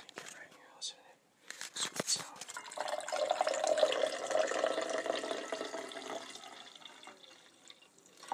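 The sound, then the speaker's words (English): Freshly brewed coffee pours into a cup in a soft, steady liquid trickle that builds and then fades, quiet overall, with hushed voices also present. “So I will pour this coffee that was just brewed before we left.”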